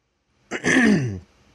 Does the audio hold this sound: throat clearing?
yes

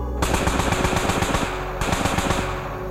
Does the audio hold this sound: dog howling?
no

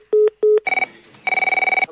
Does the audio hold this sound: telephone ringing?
yes

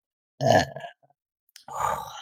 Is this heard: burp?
yes

